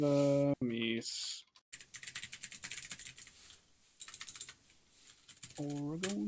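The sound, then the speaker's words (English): Typing on a computer keyboard: a quick, irregular run of light key clicks with brief pauses, framed by short bursts of a voice talking before and after. “Oops, I almost typed in the adventure of the Mies again.”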